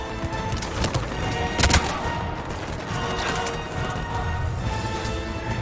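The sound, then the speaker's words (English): Video game gunfire: a few sharp shots cracking over a steady, dense layer of game noise, with the loudest burst near the middle. “Let's grab over here some ammo. And shoot that guy.”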